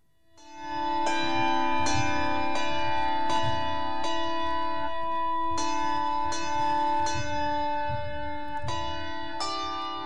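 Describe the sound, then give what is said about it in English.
Handbells playing a simple nursery melody, many clear struck notes with long, ringing overtones that overlap and sustain beneath each new strike, alone, in a slow, even rhythm. “So that's Mary had a little lamp played on the handbells.”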